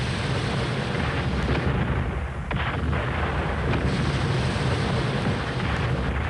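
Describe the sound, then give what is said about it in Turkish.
Cannon fire from a castle during a sea battle, heavy low booms rolling under a constant roar of wind and rumble, with one sharper blast standing out near the middle. “Kaleden atılır bu toplar.”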